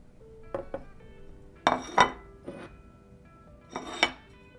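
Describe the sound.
Plates and cutlery clatter as food is served: a few light clinks, then sharper ceramic and metal knocks in small clusters with quiet gaps between them, and no voices.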